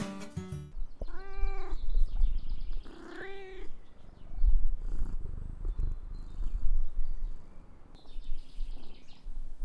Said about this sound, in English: The sound you just heard could have been recorded at Cortes Island's cat shelter if I had visited last spring.